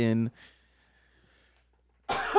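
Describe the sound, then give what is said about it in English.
A single loud, rough cough at the start, then near silence before a person begins talking. “Oh, it was a good cough, bro.”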